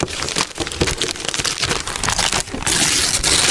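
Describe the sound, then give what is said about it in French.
Paper crinkles and crackles as a prize gift is unwrapped at a game, in a dense, continuous rustle of many small crackles that grows louder and brighter toward the end. “On l'ouvre et on découvre ce que vous avez gagné. Lequel vous avez envie de déballer ce midi? Eh bien, on va prendre le cadeau numéro 1.”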